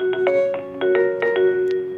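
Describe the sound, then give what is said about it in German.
A telephone rings at a trade union's headquarters in London: a quick run of bright electronic tones with rich overtones, each note starting sharply and ringing on, with no voices present. “bei der im Moment ziemlich oft das Telefon klingelt”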